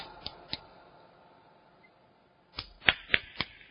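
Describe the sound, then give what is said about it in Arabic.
Sharp slaps of the back of one hand struck against the other palm, demonstrated in an Islamic law lesson on how a woman signals the prayer leader: two spaced claps, a pause, then four quicker ones. “هذا تصفيق الطرب، بطن كف بطن كف، لكن بطن بظهر، بطن بظهر”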